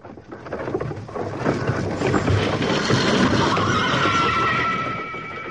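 A horse neighs as riders set off. The long whinny rises out of a dense, rumbling bustle of hooves and movement and swells loudest toward the end.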